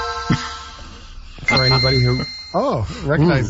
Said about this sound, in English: this is the sound of my very real Game Boy turning on earlier today.